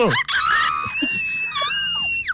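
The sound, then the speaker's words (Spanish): A loud, sustained celebratory scream from a prize winner. It is high and shrill, wavers and bends in pitch over about two seconds, and begins with a quick rising whoop. “Este es el gran grito.”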